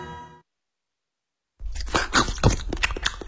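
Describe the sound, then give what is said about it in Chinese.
Crisp, loud crunching of a raw carrot being chewed: many irregular bites follow quickly one after another after a short silence. “好好的嚼一嚼啊。 我发现了 啊， 嚼胡萝卜其实是挺累的一件事。”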